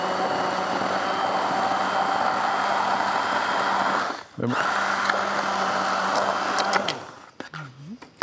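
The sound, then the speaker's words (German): A kitchen blender whirs briefly to mix and purée food. Its loud, steady motor drone dips once partway through, then cuts off near the end, leaving a few faint knocks and handling noises. “Willst du das Ganze noch mal pürieren oder kurz, wie? Kurz mixen, ja. Mhm. Ja, okay. Du musst kurz mixen.”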